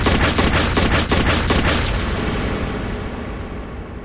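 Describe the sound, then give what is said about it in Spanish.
A pistol fires again and again in a quick volley of sharp, loud cracks. The shots fade into a long, noisy rumbling decay. “La toma, revisa que esté cargada y dispara una y otra vez en la cabeza al profesor.”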